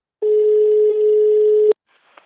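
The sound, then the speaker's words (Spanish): Telephone ringback tone as a town-hall librarian calls a library user: one long, steady, mid-pitched ring that stops abruptly, followed by near silence. “va a hacer una llamada”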